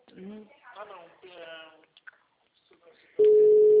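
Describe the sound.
A telephone line tone heard while a call is placed, a loud, steady, unbroken hum that starts abruptly after a stretch of talking and carries on to the end.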